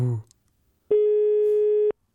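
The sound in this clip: Ringing tone of an outgoing telephone call: a single steady, low-pitched electronic tone lasting about a second, loud and clean, after a brief moment of talk at the start.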